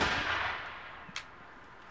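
A gunfire volley on the command to fire, a broad, fairly faint blast that decays over about a second, followed by two sharp single cracks.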